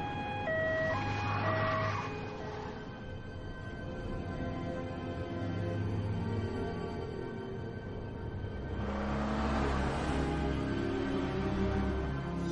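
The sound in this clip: Police car sirens wail during a car chase in a 2004 spy thriller film, with steady tones standing out early over dense, continuous traffic noise that swells again toward the end.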